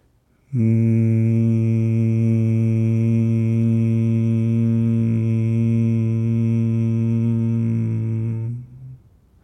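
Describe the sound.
A voice hums a long 'mmm' for the Hebrew letter Mem, a low, steady, loud drone rich in overtones that holds for about eight seconds, then stops.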